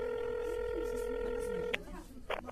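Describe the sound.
A telephone call is being placed: a steady electronic tone holds, then cuts off into a few brief clicks and soft handling noise.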